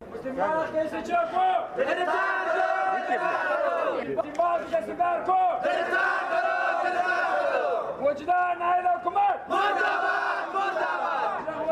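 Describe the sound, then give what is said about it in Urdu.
Protesters in Qila Saifullah chant slogans for their demands after a death in custody; many voices shout in unison in three long rhythmic bursts, each followed by a short pause. “مظاہرہ شرکا نے اس موقع پر اپنے مطالبات کے حق میں نعرے بازی بھی کی۔”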